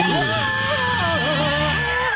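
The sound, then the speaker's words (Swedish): A group of people scream together in a loud, sustained burst. The overlapping voices waver up and down in pitch for about two seconds. “Ska alla skrika eller?”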